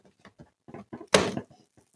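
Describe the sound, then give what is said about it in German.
A cardboard door of an advent calendar is opened: a few small faint clicks and taps, then a brief loud papery tear. “Ich muss sagen, dieser Kalender hat mich noch nie enttäuscht und er wird mich auch heute nicht enttäuschen. Ich weiß es. Ich werde ihn jetzt öffnen.”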